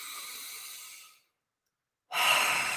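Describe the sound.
A deep breath: a loud, airy inhale of about a second, a short silent pause, then a strong, breathy exhale.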